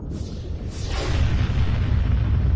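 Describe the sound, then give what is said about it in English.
A turbolaser blast from a starship: a deep, explosive roar that begins with a brief burst, then swells into a loud, sustained rumble that carries on to the end. “A blast of turbolaser fire shot past, burning a scorch line in the Predominance's bridge canopy.”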